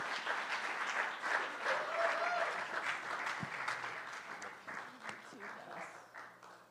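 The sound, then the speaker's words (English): Warm audience applause for a team, a steady wash of clapping that holds for several seconds and gradually thins toward the end. “Yeah, so thank you guys. Let's give them a hand.”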